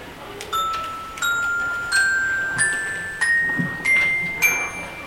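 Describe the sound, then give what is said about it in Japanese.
Bright, ringing notes are struck on a glockenspiel, a metal-plate instrument. Seven separate strikes step upward in pitch at an even pace, each chiming and decaying before the next. “簡単に言うと鉄琴なんですけれども、よく鼓笛隊何かに縦型のを使われたりしますけれども、とても可愛い音がします。”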